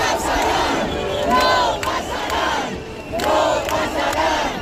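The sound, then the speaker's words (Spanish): Crowd of protesters chanting 'no pasarán' in unison at an eviction, loud and rhythmic, with repeated shouted phrases and sharp accents over a steady roar of voices. “Este "no pasarán" que proclamaban cuando se ha colado una persona con una bandera de España, con un lema, y bueno, la han intentado echar, la policía se lo ha llevado”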